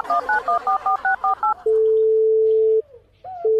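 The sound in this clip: Telephone keypad dialing tones for a call to a police station: eight quick, even beeps, then a long, steady, loud tone, a short gap, and the tone starting again.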